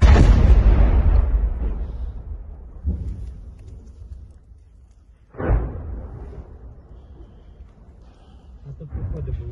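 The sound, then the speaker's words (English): Artillery fire in a war zone around the city trenches of Bakhmut: a few deep, rumbling booms with long decaying tails over a continuous low rumble, the sharpest blast falling near the middle. “the endless barrage of artillery like these men have”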